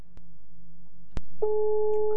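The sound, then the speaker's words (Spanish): Ringback tone of an outgoing WhatsApp call: a steady, mid-pitched electronic tone starts partway through and holds unbroken to the end, after a few faint clicks. “te estamos llamando, pero por WhatsApp. Vamos a llamarlo por WhatsApp.”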